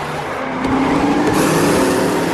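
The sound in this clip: Loud, steady engine roar of a supercharged racing car speeding into oncoming traffic. The drone swells slightly partway through and carries on without a break.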